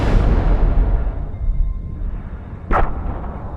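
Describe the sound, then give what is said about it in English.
A prison explodes in a huge blaze: a deep, rolling roar of rumbling noise swells and thins, then a sharp, bright blast bursts out near the end. “The prison explodes in a blaze as bright as a supernova.”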